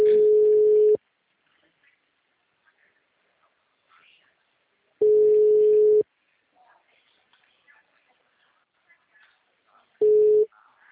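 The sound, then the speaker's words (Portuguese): Ringing tone heard while a telephone call is being placed: three steady low beeps, each about a second long, recurring every four seconds with near silence and faint small noises between them. “Tá ligando de novo.”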